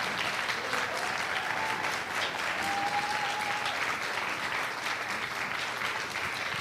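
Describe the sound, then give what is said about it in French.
A church audience applauds to welcome a pastor with sustained, even clapping from many people. The sound stays dense and steady for the whole stretch. “si on peut accueillir chaleureusement, bénir le Seigneur et acclamer le Seigneur pour son serviteur, pasteur David Storm.”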